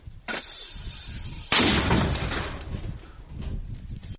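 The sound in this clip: A mortar battery firing: two booming blasts with long rumbling tails, the second louder and heavier than the first.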